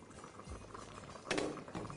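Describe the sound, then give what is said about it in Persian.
Soft bubbling comes from a stew with fried eggplant simmering over a lowered flame, a faint steady patter of small bursts with one brief louder gurgle near the middle. “شعله رو کم میکنیم که ضربه های حباب بادمجون رو سرخ کرده رو له نکنه و گمش کنه.”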